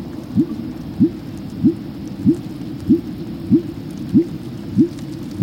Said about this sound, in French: donc c'est le son du rorqual commun, ce son très ennuyeux et tellement monotone